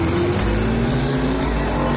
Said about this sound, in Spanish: Los cuatro deportivos se lanzan a la carrera.